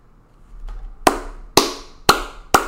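One person clapping their hands: four sharp, loud, evenly spaced claps, each cut short, heard alone with little else in the background.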